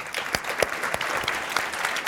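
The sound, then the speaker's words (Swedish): Applause from a live audience of school students, a dense, steady patter of many hands clapping with no break. “Och eftersom ni är så gulliga och applåderar så vill jag då fråga er.”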